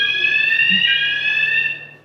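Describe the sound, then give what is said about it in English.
A proximity alarm that goes off when someone gets too close gives a single steady, high-pitched electronic tone, loud and unbroken, fading out at the very end. “That's if you get too close. If you get too close, the little alarm goes off.”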